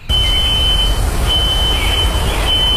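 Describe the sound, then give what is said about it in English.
Smoke detector alarm still going off near a burning row house after a three-alarm fire: a loud, high, steady electronic tone with brief breaks, over heavy low rumbling background noise. “That is the sound of a nearby smoke detector still going off this morning.”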